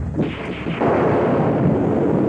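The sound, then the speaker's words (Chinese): Thunder rumbles loud and continuous during a heavy rainstorm in Shenzhen. The dense, low roar swells after the first moment and holds steady to the end. “外面打起雷来，闪电夹着暴雨很快便笼罩了深圳城。”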